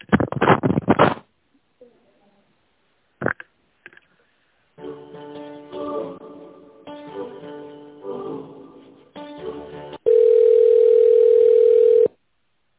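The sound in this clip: Telephone line sounds while a call is transferred: an opening burst of line noise and a few clicks, then a buzzy tonal passage, ending in a loud, steady continuous tone of about two seconds.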